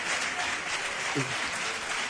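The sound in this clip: Applause at an emotional ceremony: a steady, continuous wash of clapping at moderate level, with a voice briefly heard over it partway through.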